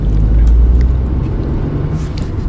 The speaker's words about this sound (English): Sorry, I'm driving.